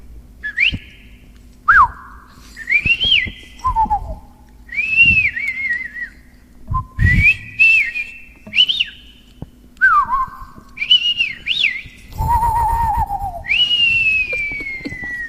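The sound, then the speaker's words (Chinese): Whistled bird-call imitations from two performers, backed by flute and percussion: many short chirping phrases with quick gliding pitches trade back and forth, and low thumps sound underneath at times. “是他也在吹，我们的笛子和那个打击乐，你们俩对一下话，用鸟语。”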